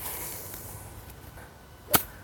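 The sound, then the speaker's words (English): A golf practice stroke through thick rough grass gives one sharp, brief swish-crack of the club through the grass, rising suddenly out of quiet background hiss. “So let's get a good feel, let's get a good sound of this rough practice stroke. Oh yeah, that's thick stuff.”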